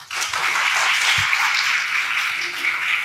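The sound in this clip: Audience applause welcoming a speaker at an apologetics conference: dense, steady clapping from many hands that holds at an even level throughout.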